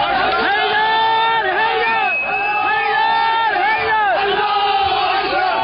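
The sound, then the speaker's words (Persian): Jubilant shouting from a crowd of attackers at the Saudi embassy in Tehran, who stormed it with stones, sticks and Molotov cocktails. Loud, continuous massed voices rise and fall in chant-like swells. “این صدای شادمانی مهاجمان است که در 12 دی ماه 1394 با سنگ و چوب و کوکتل مولوتوف به سفارت و کنسولگری عربستان سعودی در تهران و مشهد حمله کردند.”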